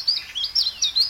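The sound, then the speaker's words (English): A chiffchaff calls in a few quick, high, chirping notes, each a brief sweeping tweet in a bouncy, uneven rhythm, clear and alone without voices. “This is the call of the chiff-chaff.”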